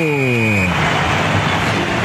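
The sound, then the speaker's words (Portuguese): A referee's whistle ends a football match in Itaquera with one steady, high, shrill tone lasting well under a second, over a voice and dense background noise. “3-0, quando nesse momento apita o árbitro.”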